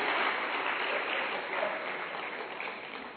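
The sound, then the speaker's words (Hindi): An audience at a spiritual talk on meditation claps loudly for themselves when invited. The dense, continuous clapping holds steady and then eases slightly toward the end. “But you are a very wonderful audience, ताली बजाइए अपने लिए जोर से”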